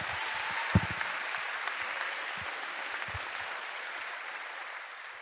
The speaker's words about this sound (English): So let's put our hands together as we welcome him.